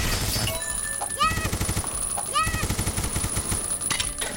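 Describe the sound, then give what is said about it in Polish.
Machine gun fire in a retro video game: a rapid, continuous stream of clipped electronic shots, with recurring swooping synthetic tones over the barrage. “Tutaj jest machine gun właśnie i możemy strzelać z niego na zasadzie tej.”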